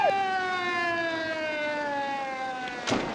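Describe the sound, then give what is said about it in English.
A police car siren as the car speeds round a corner: a loud, steady wailing tone rich in harmonics, its pitch sliding slowly downward, with a brief noisy burst near the end. “A police car speeds round the corner just after the trucks have disappeared.”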